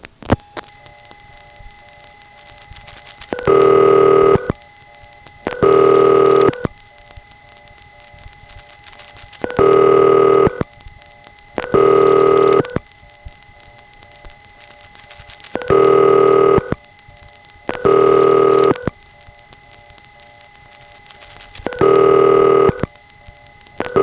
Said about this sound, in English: Notice how underneath the double ring here, you can hear the crossbar 5's higher pitched double ring.